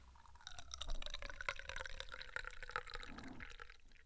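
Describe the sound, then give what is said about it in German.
Tea pours from a thermos flask in a faint, steady trickle with small dripping and splashing sounds that run through the whole stretch and thin out toward the end. “also füllen wir da gerade einen Tee ein, wo ich meine Thermoskanne schön aufbereitet habe für die Podcast-Aufnahmen”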